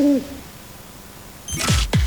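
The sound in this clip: An owl hoots: two short, sharply falling hoots close together near the end, after a brief tonal note at the start and a quiet stretch in between.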